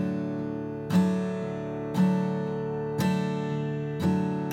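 Clawhammer-style guitar brush-thumb strumming: four evenly spaced strums about a second apart, each with a bright attack that rings out into sustained low notes.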